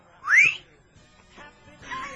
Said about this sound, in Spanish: Yo no sé si son silbidos de aprobación o de reprobación. De reprobación son siempre los silbidos. O se silban entre ellos.